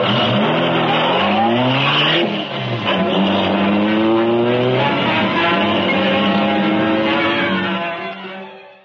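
Car engine revving and pulling away as a radio drama sound effect, a loud, full engine note whose harmonics climb in pitch as it accelerates, then fade out at the end.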